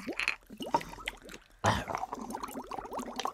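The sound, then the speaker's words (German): Water bubbling softly, many small gurgles with short rising chirps in an uneven stream, moderately loud and continuous throughout. “Ich blubber noch mal ganz leise mit dem Wasser.”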